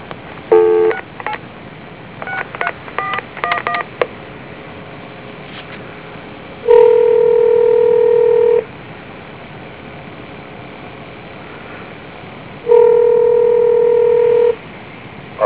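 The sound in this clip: A telephone number is dialed on a touch-tone keypad: a quick run of short, clipped beeps, then two long, steady ringing tones separated by a pause, all with a thin, narrow telephone-line quality.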